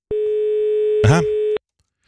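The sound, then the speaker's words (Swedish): Telephone ringing tone while a call is placed: a single steady mid-pitched tone held for about one and a half seconds, then silence, with a brief voice sound overlapping it near the end. “Ser du, nu börjar jag ringa igen.”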